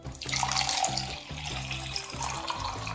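Palm wine being poured into a cup: a steady splashing, gurgling stream of liquid that runs for about three seconds with no talk.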